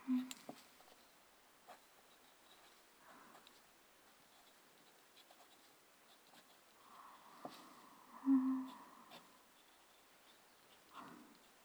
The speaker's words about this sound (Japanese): そのまま意識を集中させて書き続ける。